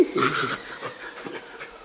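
A sled dog in harness pants in quick, rhythmic breaths, a run of short, breathy huffs that are strongest at the start and ease off slightly toward the end.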